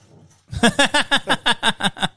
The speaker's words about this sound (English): They freak out with the dog barks there.